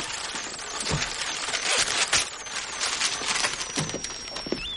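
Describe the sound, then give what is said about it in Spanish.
A zipper is pulled up on clothing, a rough rasping rustle mixed with other movement noise, and a thin whistling tone near the end. “Le sube la cremallera”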